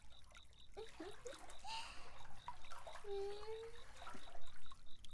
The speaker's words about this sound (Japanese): さあさあ、並んで温泉ぷかぷかしましょう。ぷかぷか。